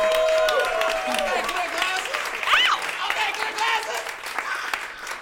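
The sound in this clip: Audience applause and cheering at a comedy show welcoming a comedian, with continuous clapping and whoops and voices calling out over it, fading slightly toward the end.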